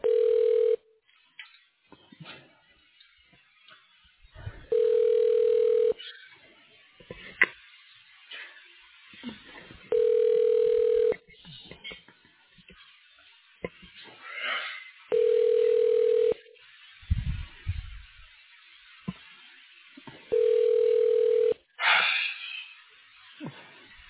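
Ringback tone of a call to an unanswered telephone extension: steady buzzing bursts repeat at even intervals about five seconds apart, with faint breathing and small rustles in the quiet gaps.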